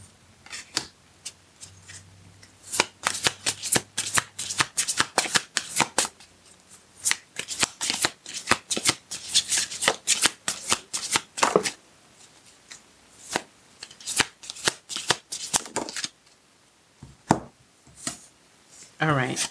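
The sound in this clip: Tarot cards being shuffled: many quick riffling bursts and crisp slaps in an uneven rhythm, with a brief lull partway through before the shuffling resumes.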